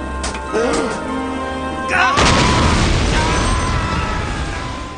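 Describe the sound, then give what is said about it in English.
A bomb blows up a bridge in an animated adventure: a loud, broad blast hits about two seconds in and turns into a sustained rumbling roar that fades only slightly to the end. “Rhino and Muggsy are standing on a bridge, and Scarface throws a bomb at them. The bridge explodes”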